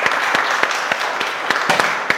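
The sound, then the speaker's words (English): Applause from clapping hands, a dense, steady patter that keeps a fairly even loudness throughout, with a few sharper individual claps standing out. There is no talking. “I think a round of applause for explosions and for biscuits”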